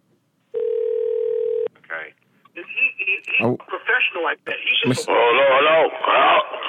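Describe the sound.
A steady telephone tone sounds for about a second as a call is placed to a cell phone, followed by brief bursts of tones and then a voice talking.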